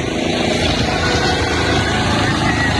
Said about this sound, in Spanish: es el helicóptero de Carabineros que se está posando sobre la ruta para poder prestar el apoyo.